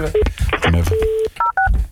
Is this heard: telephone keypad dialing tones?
yes